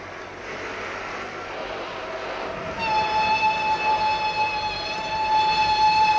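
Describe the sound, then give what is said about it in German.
Steam locomotive whistling impatiently beside a railway track: a steady, sustained high whistle begins about three seconds in and holds over the low rumble of the train. “Die Lokomotive mahnte ungeduldig.”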